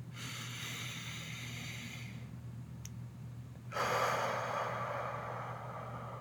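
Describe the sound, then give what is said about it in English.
A person breathes in deeply during a guided breathing exercise, making long, airy breath sounds over a steady low hum. The breath noise swells again after a brief dip. “And one more time, breathe in.”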